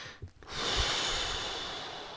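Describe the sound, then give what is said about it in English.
One long breath drawn in during guided breathing exercises, heard as a steady airy hiss. It swells quickly after a brief soft rustle and holds for nearly two seconds with no talking. “Take a breath.”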